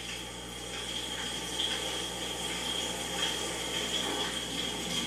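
Shower water running in a house bathroom, a steady, even hiss that holds at an unchanging level for the whole stretch with no voices.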